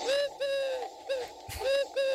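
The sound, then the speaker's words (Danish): Blackbird singing outside a window: several short, mellow, fluting phrases repeat in quick succession with brief gaps. Each phrase is moderately loud and no one speaks. “Nå jo, det er bare en solsort.”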